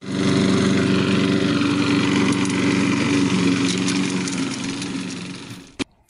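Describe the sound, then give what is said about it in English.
A push lawnmower's engine runs in a steady, loud droning hum with buzzing tonal overtones for several seconds, then cuts off abruptly near the end, followed by a couple of brief clicks. “he chose a lawnmower, a push lawnmower, to get away.”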